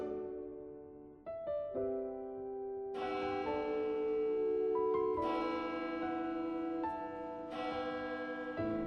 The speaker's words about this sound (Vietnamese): Chuông tất cả nhà thờ khua vang.